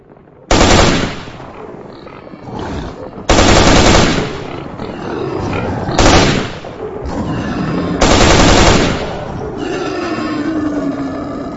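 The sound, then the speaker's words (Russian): Automatic rifle fire rattles out in four loud bursts over a continuous rough, roaring din, set in a fight against a herd of mutant beasts. “Тут же отозвался автомат Артема. Он стрелял точно не хуже меня.”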